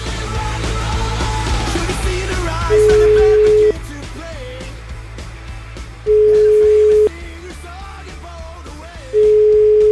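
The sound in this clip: Telephone ringing tones during an outgoing call: three steady, mid-pitched tones of about a second each, spaced a few seconds apart, with voices and noise in the background.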